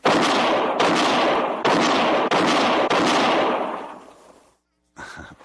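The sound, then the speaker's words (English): Loud gunshots ring out in a quick-draw shooting contest, a fast string of sharp cracks running into one another and then dying away, followed by one brief later burst. “that's mighty fine shooting”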